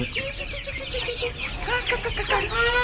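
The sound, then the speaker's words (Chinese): Chicks clucking as they gather to feed on bran, a busy stream of short chirping calls overlapping irregularly at a moderate level. “弊啦弊啦弊啦，嗰啲鸡仔嚟齐添啊！”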